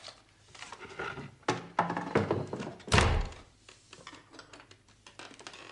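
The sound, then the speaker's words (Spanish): A wooden plank is set down over a hiding place, giving one loud, dull thunk among a few lighter knocks and scraping handling sounds. “tapa el escondrijo con el tablón”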